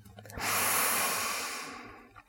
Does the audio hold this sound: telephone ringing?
no

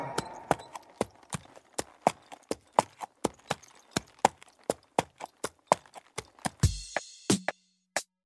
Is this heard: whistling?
no

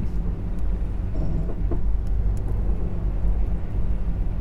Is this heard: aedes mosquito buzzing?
no

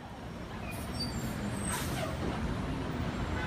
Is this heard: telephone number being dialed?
no

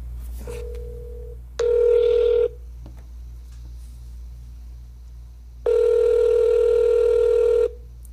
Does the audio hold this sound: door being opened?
no

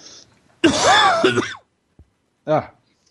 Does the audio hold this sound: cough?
yes

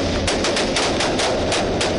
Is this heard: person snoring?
no

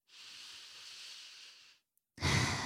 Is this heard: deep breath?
yes

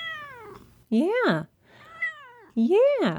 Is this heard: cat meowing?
yes

